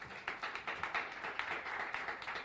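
Applause from an audience welcoming a woman to the stage at a morning gathering: dense, steady clapping of many hands, fairly faint, with no pauses.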